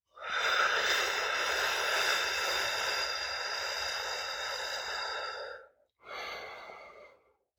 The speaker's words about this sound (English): Let's take a deep breath together, okay? Three, two, one, inhale. Hold it. Exhale.